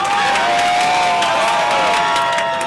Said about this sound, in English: Just down the street, a group of anti-regime activists crowded around a TV. They cheered when New Zealand scored the first goal.